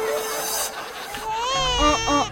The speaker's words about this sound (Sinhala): එතකොටම බබා අඬන්න පටන් ගත්තා.